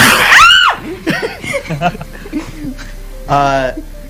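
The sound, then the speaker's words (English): A sharp, high human scream bursts out at the very start. Ordinary talk follows for the rest. “And that was an actual scream. I was not expecting you to do so that.”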